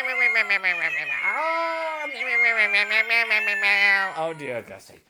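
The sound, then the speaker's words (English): Electronic singing-cat meows from a musical greeting card form a loud, continuous tune of wavering, sliding meow tones that rise and fall through the melody, with nothing else heard. “Oh dear, I see it's a singing kitty cats.”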